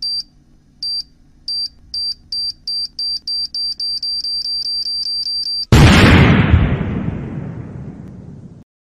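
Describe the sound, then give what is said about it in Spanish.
A bomb sound effect opens with a series of sharp, high electronic beeps that speed up, then a single loud explosion bursts and rumbles, fading slowly over a few seconds. “Emma, poné la bomba, por favor, porque ya somos 1,000 en el leñero.”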